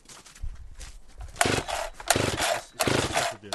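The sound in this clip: A chainsaw being pull-started: a few rasping, rattling pulls of the starter cord in quick succession, growing louder, with softer handling noises before them.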